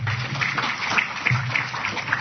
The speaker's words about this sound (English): Please put your hands together to welcome Mark.